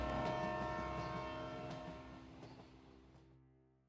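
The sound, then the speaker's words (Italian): A train departs with a quiet, steady rumble under sustained horn-like tones that slowly fade out. “Salite in carrozza, parte Espresso Indiano.”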